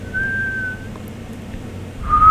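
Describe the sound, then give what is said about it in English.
A person whistles a steady, sustained high note, then breaks off and returns with a second short note near the end, over a faint low background hum. “Oh, you know how to whistle? Oh, I thought you didn't know.”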